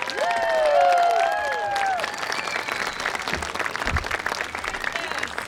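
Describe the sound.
Audience applause welcoming a speaker to the stage, dense clapping throughout with shrill cheers rising above it near the start.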